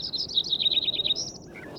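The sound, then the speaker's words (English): Lincoln's sparrow song: a high, rapid run of bubbly, warbled trill notes that carries on without a break and stays fairly faint against a quiet background. “Lincoln Sparrow number 1 continued.”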